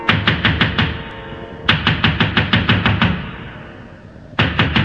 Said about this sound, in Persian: پیرزنه دوید و دوید تا به خونه دختر رسید، حوصله‌اش اومد به سر، با عجله کوبید به در.